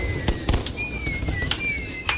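A fireworks sound effect plays as a birthday greeting. A thin whistling streak wavers at a high pitch through several sharp crackling bangs and pops that sound together with no voices.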